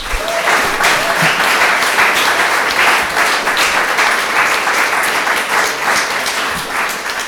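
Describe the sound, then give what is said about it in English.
Audience applause welcomes a speaker at Conway Hall: dense, continuous clapping from a crowd, loud and steady from start to finish with no break. “Please can you give a nice warm Conway Hall welcome to Gavin.”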